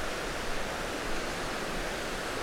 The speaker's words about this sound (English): And this is the sound of it pouring out the other side, just a tumble of white water.